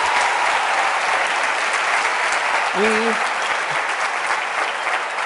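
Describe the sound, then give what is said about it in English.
A crowd gives a full round of applause, a thick, even wash of clapping that holds steady throughout, with a brief voice rising over it about midway. “We've got this amazing show, RuPaul's Drag Race. Give them a big round of applause.”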